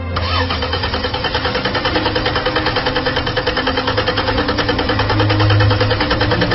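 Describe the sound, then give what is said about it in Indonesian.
A car engine cranks but fails to start. The starter churns in a steady, rapid rhythmic pulse for several seconds, loud and mechanical, and never catches into an idle. “mobil tidak kunjung bisa starter. Ada apa dengan mobilku ini?”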